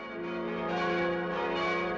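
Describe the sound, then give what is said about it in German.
Church bells ring out from the massive tower of the church in St. Engelmar in the front Bavarian Forest. They are fairly faint, with full, overlapping resonant tones that hum steadily and swell slightly. “Das sind die Glocken von der Kirche in St. Engelmar. Klangvoll und kräftig tönen sie vom wuchtigen Turm über die Täler und Höhen des vorderen Bayerischen Waldes.”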